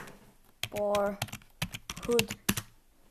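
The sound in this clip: Typing on a computer keyboard: a quick, uneven run of sharp key clicks, fairly faint, with brief voice sounds mixed in.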